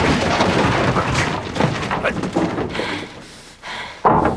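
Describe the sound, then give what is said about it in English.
A car reverses into a pallet full of boxes. A dense, noisy rumble of motion and crunching fills most of the moment, eases off briefly, then ends in a sharp, heavy thud. “The Chinese back up, and Porter grabs onto the back bumper. They back into a pallet full of boxes.”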